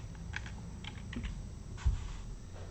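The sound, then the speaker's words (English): Faint typing on a computer keyboard: soft, irregular keystroke clicks scattered over a low background hum, with one slightly louder knock near the end. “And if you can hear me type, and I am making sure that I have the correct date”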